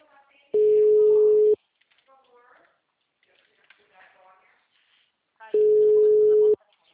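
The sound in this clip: Telephone ringback tone while a call is being dialed: two long, steady, mid-pitched tones about five seconds apart, with faint talk between them.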